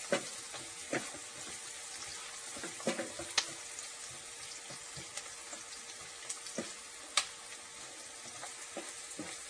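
Soft sizzling of diced onions frying in a pan, a steady faint crackle broken by scattered sharp clicks and taps.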